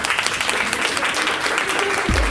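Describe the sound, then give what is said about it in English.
Applause from an audience thanking presenters at a child and youth care student event: dense, steady clapping at an even loudness for the whole stretch, with a brief low thump near the end. “So if everyone can give them a round of applause.”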